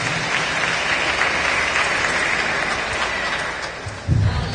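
An audience in church gives strong applause during a Mass, a dense, continuous wash of clapping that stays level for several seconds.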